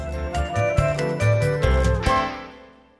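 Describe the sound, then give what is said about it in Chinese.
Bright tinkling chime used as a page-turn cue in a children's read-along story: a quick run of bell-like strikes over a soft tonal bed, then a ringing fade in the final second. “听到这个声音，要翻到下一页哦。”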